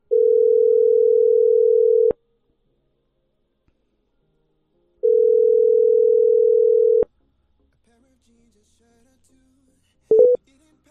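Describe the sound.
Telephone ringback tone after dialing a number: two steady, hum-like tones of about two seconds each, separated by roughly three seconds of silence, then a brief click and short tone at the end.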